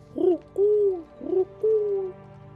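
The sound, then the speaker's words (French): A pigeon kept in a golden cage coos four times, alternating short throaty coos with longer drawn-out ones, low in pitch and fairly clear, with no voices. “un petit pigeon. Un pigeon qui te fixe intensément dès qu'il en a l'occasion.”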